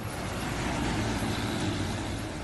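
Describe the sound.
Heavy engine drone of a lorry at the edge of a remote village in Telangana at night, a steady, dense, loud rumble with a low hum that holds evenly throughout, with no voices.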